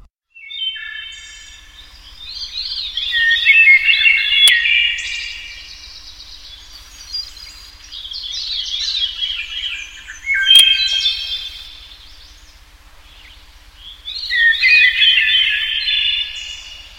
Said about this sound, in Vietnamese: cặp mỏ nhỏ xíu của chim luôn tuôn ra những âm thanh réo rắt, du dương, lúc nhẹ nhàng như gió thoảng, khi róc rách như suối reo.